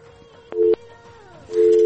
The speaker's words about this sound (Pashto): هلو، له بده مرغه چې اړیکه یې قطع شوله. اړیکه یې قطع شوله، لنډه به بله اړیکه راواخلو.